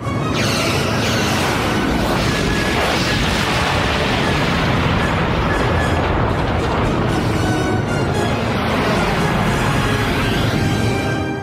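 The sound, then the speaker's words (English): Explosions from quantum torpedoes fired by a spaceship in battle, a dense, continuous roar of booms and rumbling blasts that stays loud throughout without a break. “Mr. Ward, quantum torpedoes. Target locked. Fire.”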